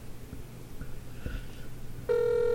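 A telephone rings during a live call-in trivia show, a steady, bright electronic tone that starts suddenly near the end after a faint, quiet stretch.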